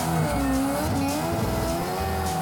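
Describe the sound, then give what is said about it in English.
A car does a handbrake entry into donuts, its tires squealing continuously over a loud, steady engine roar through the whole stretch, with no voices. “First one, we'll just come in, little handbrake entry, do some donuts. A little bit of gas. Straight into it. Little handbrake, that's it.”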